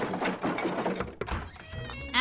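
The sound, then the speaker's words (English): A milk cart wagon breaks down with a sharp thunk midway, followed by mechanical rattling and clatter, after a stretch of busy, noisy sound. “My milk cart just broke down. Mind if I unload some milk so I can fix my wagon?”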